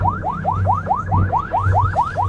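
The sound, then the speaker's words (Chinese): A coast guard boat's siren wails in rapid, regular rising sweeps, about ten cycles, over a steady low engine drone, loud with no talk. “加速了，加速了， 开警报”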